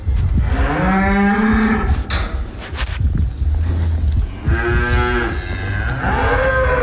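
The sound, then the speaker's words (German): Cows mooing in a barn as they are brought in from pasture: several long, drawn-out harmonic moos over a steady bed of stall noise. “Da sind wir auf dem Lohhof bei uns daheim. Mitten im Stall innen. Das heisst, die Aufnahme war eigentlich, ich bin gerade Kühe von der Weide reinholen.”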